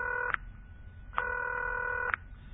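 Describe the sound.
Telephone keypad tones as a number is dialed, steady dual-pitch beeps with sharp clicks at each change, one long tone in the middle flanked by shorter ones, faint and without talk.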